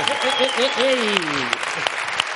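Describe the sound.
Audience applause after a joke, scattered claps, with a voice heard over the opening seconds.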